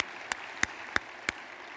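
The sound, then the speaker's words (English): Hand claps ring out during a church service, four sharp, evenly spaced claps in a quick, steady rhythm with no voices. “Let's give them a hand clap of praise in the house of God.”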